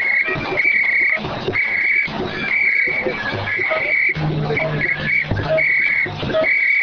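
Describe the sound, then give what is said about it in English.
Shrill whistle blasts from a woman dancing in pink with a colander on her head, sounding as loud, sustained bursts repeated many times in an uneven rhythm over steady background noise. “we've got a woman with a colander on her head, dressed in pink, dancing and blowing a whistle”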